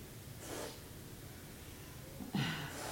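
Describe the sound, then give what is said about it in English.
Nasal exhalations through the right nostril during a guided breathing meditation with Wahe Guru chanting: two faint, short airy snorts, one early and a slightly stronger one near the end, over a quiet background. “Look at the tip of your nose. And exhale through the right.”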